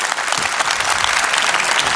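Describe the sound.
Loud, dense applause from an audience welcoming a pastor who is about to sing, steady clapping that holds at an even level without a break.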